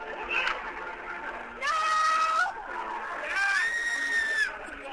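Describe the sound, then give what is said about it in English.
At a live show, one person yells no and another screams. Two loud, sustained vocal bursts with shifting pitch rise over a constant crowd din, and other voices run underneath. “I'm going to play another clip, which is from, it's a sound of me yelling no and you screaming.”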